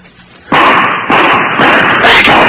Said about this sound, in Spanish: Ya me divisaron. Me están disparando.